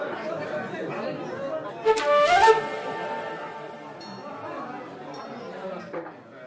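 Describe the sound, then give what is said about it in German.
Ambience of a 17th-century inn: many voices murmur and chatter steadily while glasses and dishes clink, with a brighter flurry of clinks in the middle. “Na, wie hast du unseren kleinen Ausflug ins Gasthaus des 17. Jahrhunderts erlebt?”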